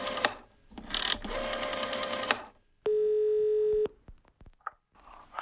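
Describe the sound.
Telephone dial tone and dialing: a steady, even tone holds for about a second after some clattering handling noise, then cuts off into a few sharp dialing clicks and a short blip.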